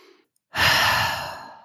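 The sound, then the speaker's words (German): A single deep breath during a guided meditation: one long, loud, airy exhalation that begins abruptly after a short silence and slowly fades, with no talking. “Dann atme nochmal tief ein und aus.”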